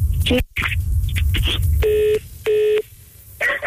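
Telephone busy tone after the other caller hung up: two even, steady beeps in the middle, among shorter electronic phone tones, all over a constant low rumble.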